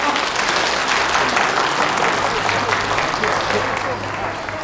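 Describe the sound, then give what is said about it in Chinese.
Applause at a meeting welcoming an acting provincial chairman. A thick, continuous wash of many hands clapping holds a loud, even level and eases off slightly near the end. “鼓掌。”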